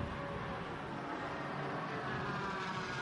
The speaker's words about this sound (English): The difference in the sound of that big twin turbocharged V8 and the 4-litre flat six of the Cayman 718.